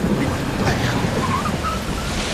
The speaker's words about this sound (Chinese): 不好啊，打雷了我！